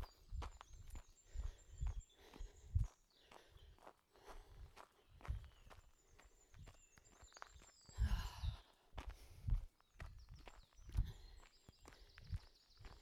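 Footsteps of a person walking during the walk break of a beginners' run-walk session. Many soft, regular steps fall in a steady rhythm and stay quiet throughout.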